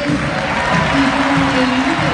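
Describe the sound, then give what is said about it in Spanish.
Boca fans applaud a player coming on as a substitute during a football match in a stadium, a dense, steady wash of clapping and crowd noise that holds at an even level throughout. “Y la gente de Boca se rompe las manos para aplaudir a Paredes.”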